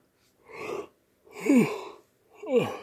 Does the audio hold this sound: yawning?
yes